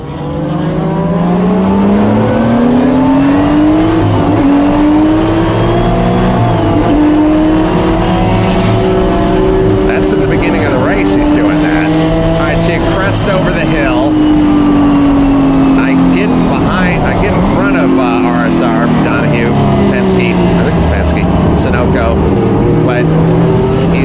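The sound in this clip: Race cars roar continuously through a race, their engines climbing in pitch as they accelerate and dropping back between shifts, loud and sustained throughout.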